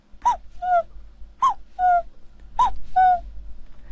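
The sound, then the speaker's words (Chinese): Cuckoo calls imitated by a human voice: three evenly spaced two-note calls, each a higher first note dropping to a slightly lower second, clear and fairly loud. “对，也有布谷鸟，布谷鸟就是它这个声音都是不一样的”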